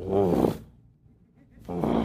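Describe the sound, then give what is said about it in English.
A man's voice imitates a lion's roar: two deep, rough, growling roars separated by a quiet pause, loud and low-pitched. “for the very first time, heard a lion roar in the wild, you're kind of like, I mean, it makes the hair stand up on the back of your neck. And especially when they go,”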